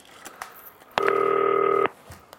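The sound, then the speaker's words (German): A single electronic keypad tone from a green telephone as a number is dialed: one steady, bright dual-pitched beep lasting just under a second, sounding alone against faint background noise. “Muss ich mal eben das 40-köpfige Team anrufen. Grüne Telefon benutzen.”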